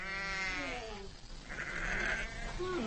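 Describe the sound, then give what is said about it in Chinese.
A ewe in labour, among nomads' livestock on the Asian steppe in spring, bleats in drawn-out, strained cries. The first call slides downward in pitch, and a few shorter, wavering bleats follow. “分娩中的母羊非常痛苦。在几个小时的挣扎和嘶嚎后，”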